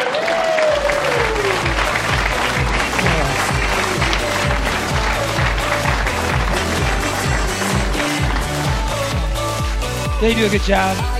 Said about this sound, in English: And as the cast sang their way off stage, the audience showed him some love.